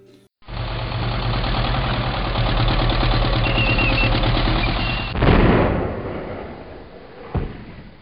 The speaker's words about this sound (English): Roll the tanks and fire.